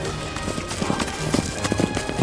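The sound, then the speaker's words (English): Galloping hooves of a herd thunder in a rapid, steady patter of many overlapping thuds, loud and continuous throughout. “Wow, look at that herd of unicorns.”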